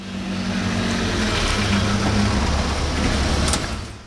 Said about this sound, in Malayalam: ദേ വണ്ടി വന്നു